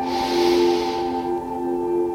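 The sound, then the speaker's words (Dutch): A person breathes in deeply through the nose, a steady airy hiss lasting about a second over soft sustained musical tones, then the hiss fades and the tones continue alone. “Je ademt nog een keer goed in en uit. Adem in via je neus.”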